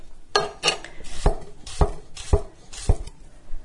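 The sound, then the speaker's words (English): Knife chopping a cucumber into slices: six crisp strikes, each ending in a low thud against the board, in a fairly even rhythm. “the sound of my chopping has sped up and my precision is going out the window. So like the first half of the cucumber was like, oh, tiny little dainty slices. Now they're getting bigger.”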